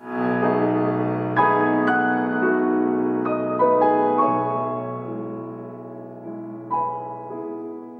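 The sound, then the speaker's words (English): Descending piano motive played on its own: several struck notes step down over sustained lower chords, moderately loud, each new note sounding with a fresh attack before the phrase fades toward the end. “is a motive in the piano that descends, and it sounds like this.”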